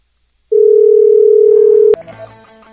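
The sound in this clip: Steady low telephone dial tone while placing a call, held alone for about a second and a half, then cut off by a sharp click and followed by a jumble of brief tones.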